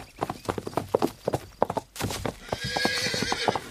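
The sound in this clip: Hooves of a ridden horse clip-clop in a quick, uneven rhythm of many sharp, fairly loud knocks with no voices.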